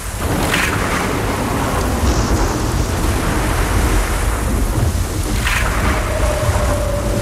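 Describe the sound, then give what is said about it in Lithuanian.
A violent storm at sea battering a ship on the ocean: a continuous, loud roar of wind, rain and churning water with a deep, rumbling low end, steady throughout. “Plaukiant vandenynu, trečią dieną laivą užklupo baisi audra.”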